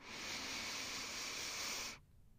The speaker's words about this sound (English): So let's take a deep inhale here together.